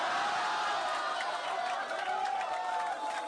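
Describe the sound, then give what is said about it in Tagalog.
An audience applauds and cheers for a performer who has just been introduced. Dense, steady clapping and crowd noise hold at an even level throughout, with a thin high tone running through the middle. “Palakpakan po natin si Rainier Requiestas.”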